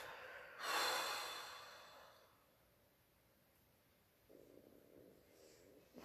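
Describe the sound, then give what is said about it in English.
Breathing in through the nose and out through the mouth during a meditation exercise: a loud hissing inhale, then a pause, then a softer, breathy exhale, faint overall and without talk. “Breathe in through your nose. Breathe out through your mouth.”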